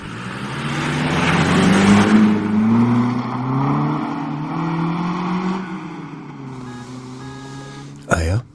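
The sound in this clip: A mail carrier's car drives off with a steady, mid-pitched engine drone that holds for several seconds and then fades. A brief sharp knock is heard near the end.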